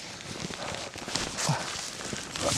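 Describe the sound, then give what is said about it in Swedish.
Footsteps of someone climbing down large boulders through dense, overlapping spruce forest, an irregular series of scuffing, crunching steps and scrapes at a moderate level. “Klättrar just nu ner från några stora bumlingar och granarna står här och överlappar varandra verkligen.”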